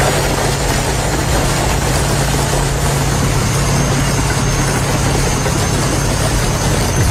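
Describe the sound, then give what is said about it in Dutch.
Two bulldozers in America rolling over and crushing about 200 scooters. A steady, loud, low engine rumble drones throughout, with no distinct crunching impacts standing out. “Korte metten, zei ik al, werden letterlijk verpletterd door twee bulldozers. Dat klonk zo.”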